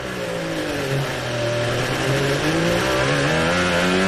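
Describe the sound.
A race car roars on a qualifying flying lap, hugging the walls under throttle and light braking. The loud, continuous engine note wavers in pitch and climbs toward the end.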